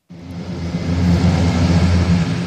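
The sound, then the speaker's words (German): Loud roaring rumble of a large grey military propeller transport plane taking off from a military airfield. A broad, steady roar carries deep droning propeller tones that swell slightly and hold throughout. “Ein großes, graues Transportflugzeug mit lauten Propellern hebt ab.”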